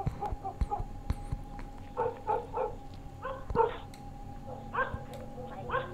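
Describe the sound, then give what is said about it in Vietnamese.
A dog barking out on the street at night in short clustered bursts, a few yelps at a time, fairly faint over a low background hum with scattered clicks. “Bỗng nhiên, ở ngoài đường, vang lên tiếng chó sủa.”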